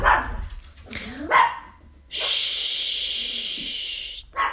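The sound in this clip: A dog barks a few times in short, sharp bursts, then a steady loud hiss takes over for about two seconds.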